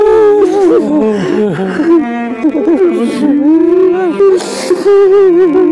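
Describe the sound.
A woman crying at an emotional family reunion with her son, loud wavering wails and sobbing moans that rise and fall in pitch throughout.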